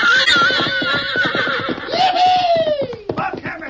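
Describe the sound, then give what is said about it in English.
A fiery red stallion turned loose neighs loudly, a shrill whinny whose pitch slides downward, over rapid stamping hoofbeats. “two cowhands who'd finally put a saddle on a fiery red stallion.”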